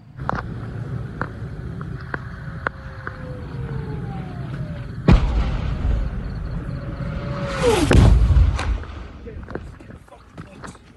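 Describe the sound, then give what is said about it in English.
Incoming rockets strike near Sderot, close to where journalists were posted. Falling whistles sound over background rumble, then a sudden heavy blast hits, and a second, rushing roar swells and booms a few seconds later before fading. “I want you to listen to the power of those rockets coming in.”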